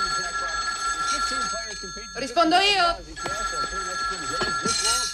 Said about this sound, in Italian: interrompe il lavoro per chiamare la sua più cara amica, che è appunto Thelma, interpretata da Gina Davis